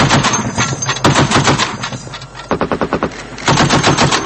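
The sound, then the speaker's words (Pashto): Automatic weapons gunfire at night in Bishkek, Kyrgyzstan, during unrest and looting: loud bursts of rapid, rattling shots with a short gap midway and then more quick strings of fire. “تیره شپه د تیارې له خورېدو سره د اتوماتو وسلو ډزې اورېدل کېدې.”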